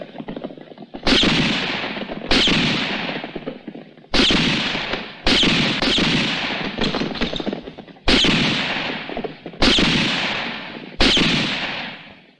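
Rifle gunshots in a tense standoff: a series of sharp, loud cracks, each followed by a long ringing decay, fired at uneven intervals, with a few closer double shots.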